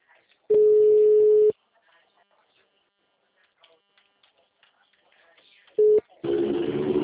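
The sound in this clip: Phone ringback tone heard while placing a call: one steady, low, one-second beep, a long quiet gap, then a brief second beep. A burst of line hiss follows as the call connects.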